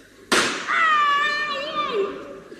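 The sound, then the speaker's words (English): A gunshot fired into a mattress: one sudden sharp burst, followed by a drawn-out tonal sound that slowly fades over about two seconds. “I have shot him in his mattress.”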